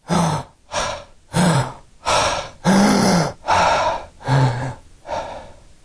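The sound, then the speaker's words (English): A person imitates a patient's catch-up breathing after apnea: eight loud, harsh gasping breaths in a steady rhythm, each cut off by a short pause, with no talking. “those very specific breathing patterns where the patient has apnea and then has what I would call catch-up breaths. You need to be able to demonstrate them with apnea followed by”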